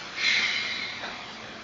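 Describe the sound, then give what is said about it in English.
A slow breath taken during a guided mindfulness meditation, a soft airy hiss that swells briefly and then fades gradually, heard alone without speech. “Let's take a few seconds to take a breath or two together and let go of the words.”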